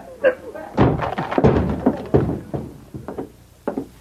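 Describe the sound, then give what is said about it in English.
A locked office door in a barracks is forced open with several heavy thuds and bangs. The blows land at irregular intervals, and voices talk between them. “Stand over to one side, Anne. I'm going to break this lock.”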